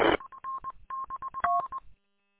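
Telephone keypad dialing tones during a phone call: a short burst of noise, then many brief electronic beeps in a quick, uneven sequence, fairly faint, ending in silence.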